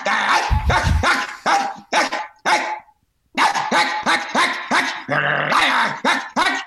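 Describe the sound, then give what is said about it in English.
A dog barks loudly in a rapid run of gruff, growly barks, with one brief pause midway before the barking resumes just as fast and hard. “you see how much is going into the bark?”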